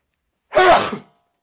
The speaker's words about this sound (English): Was that a sneeze or was that like just... Oh, okay, you are sneezing.